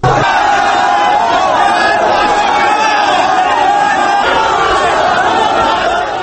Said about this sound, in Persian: این صدا از اعتراض است که در بگرام گذشت.